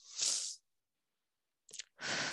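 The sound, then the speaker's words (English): A deep breath taken to pause and release tension: a soft, breathy inhale, a long silent gap, then a short catch and a steady, airy exhale, all faint. “I just want to stop and take a deep breath.”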